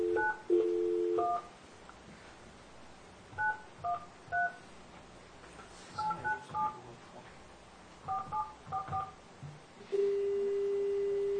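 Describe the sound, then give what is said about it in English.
Touch-tone telephone keys being pressed to dial a number: many short beeps in quick clusters separated by pauses, each a clean two-tone chirp, ending with a steady unbroken tone. “Did you dial the one? Yes. I even dialed the nine first.”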